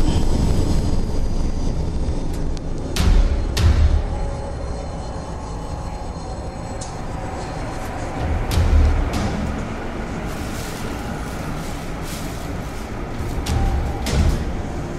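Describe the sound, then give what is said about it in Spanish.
A train at a large railway station in Madrid: a steady low rumble fills the scene, broken by a few sharp metallic clanks and knocks, with no voices. “Y ahí estaba, imponente, tradicional y siempre firme, la estación de Atocha en uno de los puntos neurálgicos de Madrid, acostumbrada a recibir a cientos de miles de ciudadanos”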